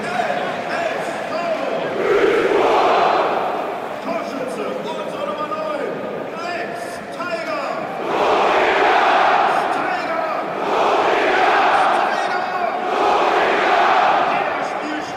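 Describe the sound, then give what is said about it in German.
At Duisburg stadium, 21,500 football fans at an MSV Duisburg versus Elversberg match roar the goalscorer's name in repeated, swelling waves, each burst rising loud above a constant crowd murmur. “So hört sich's an, wenn 21.500 Kehlen den Torschützen verkünden.”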